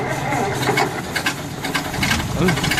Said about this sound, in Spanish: Vaya, el motor se ha encasquillado.